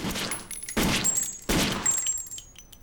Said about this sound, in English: shoots him several times in the chest.